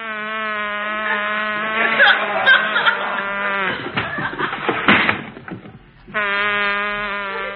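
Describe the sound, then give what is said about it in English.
A bee buzzes around a honey-covered English muffin with a loud, steady, droning hum. Midway the buzz gives way to a jumble of other noise, then returns just as steady. “That's a bee. He's still working on it. Oh, yeah. Go away, bee. Go away. Go away.”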